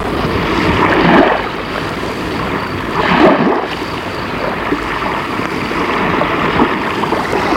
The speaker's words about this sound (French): et ils vont nager dans une mer pleine d'écume.